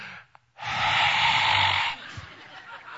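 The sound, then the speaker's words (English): A man breathes out onto someone in front of him, giving one long, forceful exhale that hisses for over a second before trailing off, after a faint breath at the start. “Jesus is trying to tell us, and he just breathes on them”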